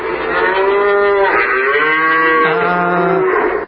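A dairy cow bellows for the calf taken from her after birth. One long, loud, unbroken moo holds for several seconds, its pitch wavering before it cuts off.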